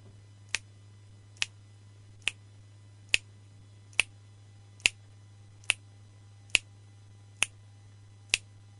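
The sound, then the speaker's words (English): Ten crisp finger snaps at an even pace of about 70 per minute, demonstrating a decimal 'Kai time' tempo slightly faster than seconds; each sharp click stands alone over a faint, steady low hum. “Can you give us a little bit of Kai time? Well, I could try. It sounds a lot like seconds. It's just you almost don't recognize it. It's a little faster, but it sounds like this.”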